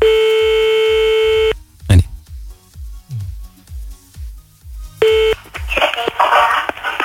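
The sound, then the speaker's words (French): A telephone call is placed: a steady dial tone, a sharp click, then a run of low rhythmic pulses, another short tone, and finally voices. “C'est parti, on y va, on appelle le dernier de la journée là.”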